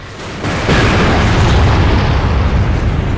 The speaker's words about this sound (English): In the nick of time, Riddick grabs Kira on the upward swing. The stubbly convict looks surprised as the fireball engulfs him.